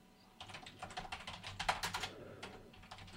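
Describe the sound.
Rapid typing on a computer keyboard during an online search: many quick clicking keystrokes in uneven bursts, with short pauses between runs and no talking.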